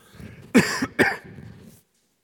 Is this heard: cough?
yes